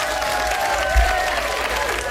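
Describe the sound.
Applause and clapping from a group, a dense, steady patter of claps that holds at an even loudness for the whole clip, with no voices heard.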